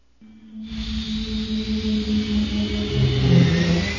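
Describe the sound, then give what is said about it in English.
Engine sound effect of a science-fiction B-Wing starfighter accelerating into high orbit, swelling from quiet into a steady whooshing roar over a low hum and growing slightly louder toward the end. “As Luke touched the levers of the B-Wing and accelerated into high orbit over Namkorios”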